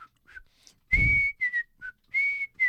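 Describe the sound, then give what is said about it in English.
A person whistles a short, clear, fairly high-pitched tune of brief notes and held tones, split into several phrases with pauses between them, with no talk. “Yeah, I can whistle like that, or I can whistle like this,”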